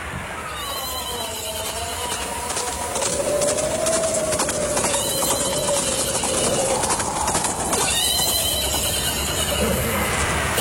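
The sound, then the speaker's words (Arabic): Two riders on horses approaching, with a steady clip-clop of hooves over a constant background and a drawn-out whinny rising midway. “يابا في اثنين على خيول جايين علينا.”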